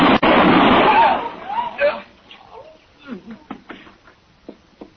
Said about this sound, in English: I think he's dead. You shoot very straight.